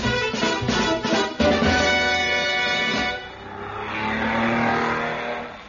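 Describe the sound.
A racing car engine roars during a race, loud and harmonically rich with a steady whine. It dips briefly partway through, then a rougher, noisier surge swells and fades.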